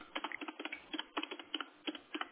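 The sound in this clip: Typing on a computer keyboard while a form entry is filled in: many quick, light keystroke clicks in irregular bursts, fairly faint, with no voices.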